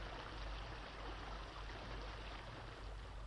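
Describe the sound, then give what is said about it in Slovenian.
Water in an underground river in a cave flows slowly, a faint continuous rushing murmur that holds steady throughout with no distinct splashes. “Voda ni več tako deroča, gre že bolj počasi.”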